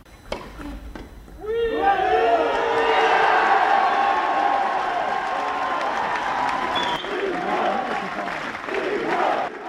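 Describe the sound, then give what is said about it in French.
A sparse but noisy tennis crowd cheers a five-set win over Stan Wawrinka, a quiet first second giving way to loud clapping, shouts and whoops that stay strong to the end. “Son exploit face à un ancien vainqueur, le Suisse Stan Wawrinka, laminé 6-0 au cinquième set, donne des frissons au public clairsemé mais bruyant.”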